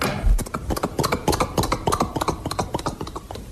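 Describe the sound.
Several horses arriving, hooves clip-clopping in a dense, rapid run of overlapping hard knocks that stays fairly loud and steady throughout, with no voices.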